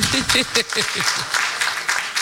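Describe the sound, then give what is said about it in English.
An audience clapping for themselves, scattered claps that begin under a voice at the start and continue as uneven bursts to the end. “Let's leave our women here. You know, clap for yourselves.”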